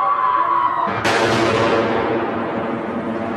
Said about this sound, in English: The mortar bombs kept on falling.